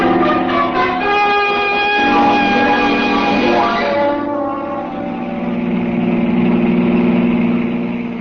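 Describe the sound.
Steady engine drone of a car driving fast at almost 70, a loud humming rumble with strong harmonics; midway a tone sweeps downward before the sound settles into a lower, rougher roar.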